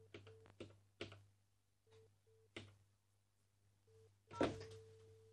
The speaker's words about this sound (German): Ich kann ja einfach mal unsere alte Nummer in Schondorf anrufen.